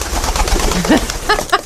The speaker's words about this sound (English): First, the carrier pigeon.